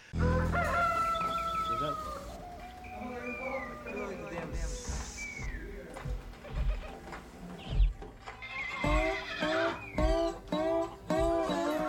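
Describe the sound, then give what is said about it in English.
Rooster crowing and hen-like clucking mixed into a country song as barnyard animal effects, the bird calls rising clearly over the steady music and singing, with a burst of sharp repeated clucks near the end. “Like, they've got the barnyard animals in the background.”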